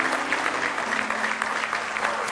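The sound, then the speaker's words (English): A church audience claps steadily in praise during a worship service. The applause is dense and even, with no break, and holds at a moderate level for its whole length. “Give him a hand clap of praise if you love him tonight with all your heart.”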